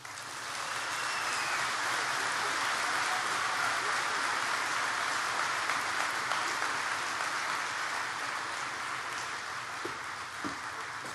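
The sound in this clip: Audience applause greets a priest, the pastor of Blessed Sacrament Parish in Newark, Ohio, as he is introduced. The clapping is dense, steady and fairly loud, a continuous wash that holds for the whole stretch without pause.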